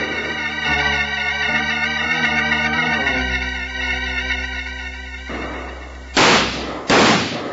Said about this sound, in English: Keep shooting, men. They can't hold out in there forever.